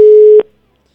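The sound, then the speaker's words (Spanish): A loud, steady single-pitch telephone tone on an unanswered call holds for under half a second, then cuts off abruptly into silence. “No, como que al final ya, o sea, termina de sonar y ya nos manda buzón.”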